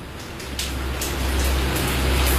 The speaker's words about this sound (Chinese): 雨声淅淅沥沥的下